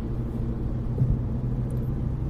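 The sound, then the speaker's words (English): Freeway traffic rumbles as cars drive at about 60 miles per hour, a faint, continuous low drone with no distinct pass-bys, steady throughout. “Cars driving 60 miles per hour on the freeway, that's fun.”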